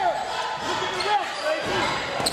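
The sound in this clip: A basketball is dribbled on the court during a high school game, with several soft bounces under crowd noise and a voice talking over them.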